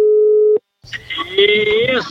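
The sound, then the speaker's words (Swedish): A telephone tone sounds as a single steady, mid-pitched beep, then cuts off to a brief silence before a voice begins speaking. “Då tänkte jag att vi skulle ringa ett samtal faktiskt.”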